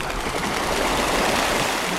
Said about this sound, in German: Gemächlich rudert er auf einige Enten zu.